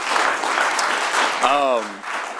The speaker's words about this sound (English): Let's all please give him a round of applause.